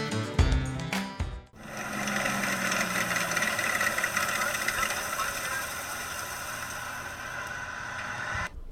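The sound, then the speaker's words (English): A World War II M4A2E8 Sherman tank engine idles with a steady, deep, vibrating rumble that holds at an even level after a short burst of louder sound at the start. “Yes, folks, that's the sound of a Sherman tank, a World War II era M4A2E8 Sherman.”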